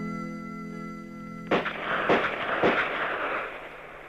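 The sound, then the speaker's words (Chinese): Gunshots ring out at a shooting range during live-fire practice by a team of police detectives. Three sharp, loud cracks follow one another, each leaving a noisy, lingering decay, right after a sustained musical tone stops. “803就带领他的部下刑警队员开赴靶场实弹练习。清脆的枪声划破了万里晴空。”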